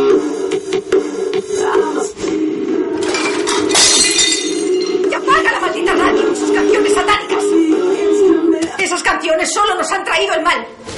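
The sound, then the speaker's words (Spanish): A plate smashed in anger by a furious girl at home: a sharp crash and clinking shatter of breaking crockery, with voices and other busy sounds around it. “Esta rompe un plato furiosa.”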